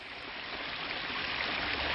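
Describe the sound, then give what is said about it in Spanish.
Water flows in through badly fitted nuts, a soft, continuous rushing hiss that holds steady and swells slightly toward the end, with no talk. “De repente, comenzó a entrar agua por esas tuercas mal puestas.”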